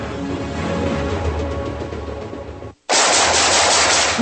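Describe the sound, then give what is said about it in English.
Rapid automatic gunfire rattles in a loud, sustained stream. It cuts out briefly, then resumes in a harsher, louder burst. “Nice shooting.”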